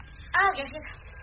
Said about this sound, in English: Why should he want to say that, Smith? The telephone is ringing, Carstairs.